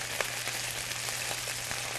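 Chicken and potatoes fry in a pan with a steady, quiet sizzling hiss. Small scattered crackles and pops run through it.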